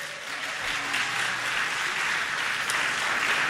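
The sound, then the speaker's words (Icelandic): Audience applause for a long-running band that won a 1983 music contest, a dense, steady wash of many hands clapping at an even level for the whole stretch with no voices on top. “það má klappa bara vel fyrir því.”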